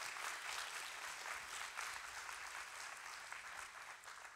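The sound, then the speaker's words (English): Congregation clapping hands at a church service, a steady, dense wash of applause that holds at an even level throughout with no voices rising above it. “let's give that Lord a hand clap”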